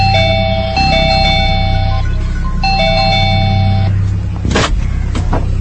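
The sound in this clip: Electronic doorbell ringing with a steady, clear multi-tone chime pattern played twice over a loud, constant droning hum.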